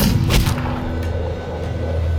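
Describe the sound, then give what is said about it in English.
A pistol shot is fired by a soldier on a startled, rearing horse. One loud, sharp bang comes early and is followed by a dense, rumbling wash of noise that stays steady to the end. “the horse reared back, startled, nearly throwing its rider, who fired his pistol. The shot caught her in the forehead.”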